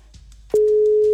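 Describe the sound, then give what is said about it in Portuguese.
Ringback tone of an outgoing phone call: a single steady, mid-pitched tone starts partway through after faint low noise and holds unbroken to the end. “Primeiro toque.”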